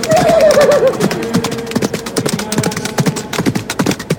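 A show-jumping tournament horse whinnies at the start, followed by many quick, irregular hoofbeats at a steady loud level.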